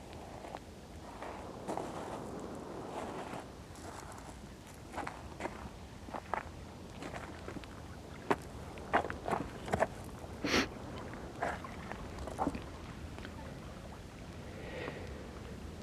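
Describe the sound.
Footsteps of someone walking outside, faint and irregular, with scattered soft steps that cluster more densely midway, over a low steady hiss.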